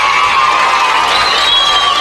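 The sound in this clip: A crowd of children cheers and shouts continuously, a loud, unbroken wash of excited voices from start to finish.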